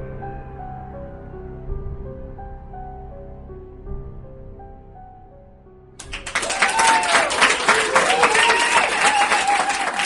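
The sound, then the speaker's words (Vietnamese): Crowd applause fills a tea house as a story sound effect. Many hands clap in a dense, loud, steady burst that breaks in after a low sustained musical passage and carries on to the end. “Tiếng vỗ tay xung quanh vang lên”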